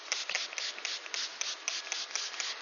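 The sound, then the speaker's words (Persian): Hands are rubbed together with alcohol sanitizer, making a rapid, rhythmic swishing of many even strokes at a fairly soft, steady level. “دست خودم هم کامل الکل زدم که چیز بشه.”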